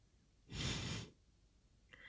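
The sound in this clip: A single breath taken close to the microphone: a soft, airy rush of air that swells up from near silence, lasts about half a second, then fades away.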